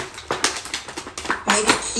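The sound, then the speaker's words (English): Tools rattled inside a full toolbox make a metallic clatter of many irregular clinks and knocks, with the loudest jangles near the end. “This is one of our toolboxes. Now, the reason I have this toolbox is because, of course, it has a litany of tools.”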